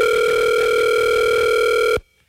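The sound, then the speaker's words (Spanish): A telephone ringing tone while a call is placed: a single steady, buzzy tone that holds for about two seconds and then cuts off abruptly, with no voices. “ya lo estoy llamando para que nos despidamos”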